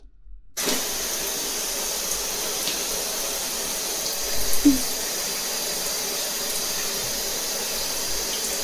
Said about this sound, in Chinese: 妈妈去洗澡了。